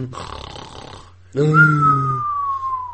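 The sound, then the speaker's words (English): Snoring from a pet dog: a quiet, rustling stretch gives way to one loud, drawn-out, low rasping snore with a thin whistling tone riding on top. “You might be able to hear some snoring in the background. That's not my girlfriend or anyone. That's my pet dog.”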